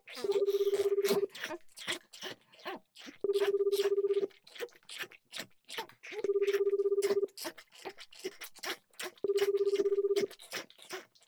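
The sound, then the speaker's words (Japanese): A telephone call rings out on the line: four evenly spaced ringback tones, each about a second long and about three seconds apart, with soft clicking and crunching noises in the gaps. “次はお姉ちゃんにお電話かけてみましょうか。”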